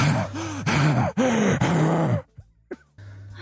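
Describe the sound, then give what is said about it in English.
A man pants while catching his breath: a few loud, strained, voiced breaths come in quick succession, then fade into quieter gasps. “for the rest of the clip, it's just kind of this guy trying to catch his breath”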